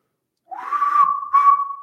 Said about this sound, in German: Jetzt haben wir uns keinen überlegt. Ich glaube, ich mache einfach mal ein kleines Pfeifen.